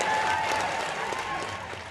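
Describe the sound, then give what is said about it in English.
Audience applause at a Hillary Clinton speech: a dense, sustained wash of clapping from a large crowd. It stays loud and even throughout, easing only slightly toward the end. “One of the biggest rounds of applause came when Hillary Clinton took a stab at the man who once was governor of Texas.”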